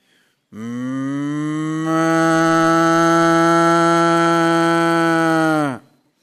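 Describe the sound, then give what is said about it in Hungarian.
A cow gives a single long, loud moo, steady in pitch and held for about five seconds, with nothing else around it. “Ezek a tehenek így csinálnak.”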